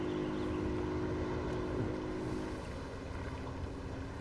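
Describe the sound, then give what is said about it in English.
A motorboat used by whale researchers off Mo'orea, French Polynesia, drones as it is steered across the water: a steady low engine rumble with a constant hum and wind buffeting the microphone, unbroken throughout. “She hauls the speaker out of the water by its cord. Later, she steers the boat.”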